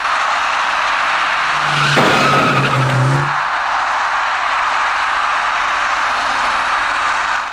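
A dark passenger car's tires screech as it brakes hard and strikes an electric bicycle rider who crossed an intersection on a red light. A short squeal and a sharp burst rise over steady, continuous traffic noise.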